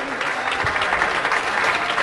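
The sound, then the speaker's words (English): Audience applause for a contestant on a live show, a steady, dense wash of clapping that holds at an even level for about two seconds. “Round of applause for Eunice.”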